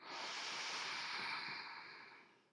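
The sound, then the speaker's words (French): One slow, deep inhale through the nose during a guided relaxation breathing exercise, a soft, airy hiss that holds steady and then tapers off at the end. “Inspire profondément par le nez.”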